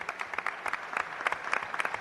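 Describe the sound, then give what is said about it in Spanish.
Audience applause at a ceremony where a gold shield is presented to the president of the Juventud de Torremolinos football club: a brief, even burst of many hands clapping. “que es el presidente del Juventud de Torremolinos, que creo que también merece un aplauso”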